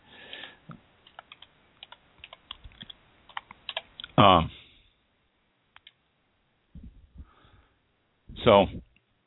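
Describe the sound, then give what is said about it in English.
Typing on a computer keyboard: a scattered run of light, quick clicking keystrokes, broken by two louder breathy bursts with only sparse clicks between them. “Y'all can hear my tick, tick, tick of my typing.”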